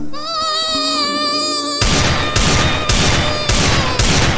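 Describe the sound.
Gunfire rings out in a video game shootout: a sustained harmonic tone gives way to loud, rapid bursts of shots that come in several clustered volleys.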